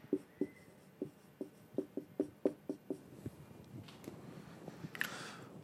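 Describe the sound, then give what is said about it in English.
Handwriting, as a word is written out again: a brisk series of short, scratchy pen strokes in an uneven rhythm, faint, easing into softer scribbling toward the end. “I'm just gonna kind of write this again, and then I'm gonna put this.”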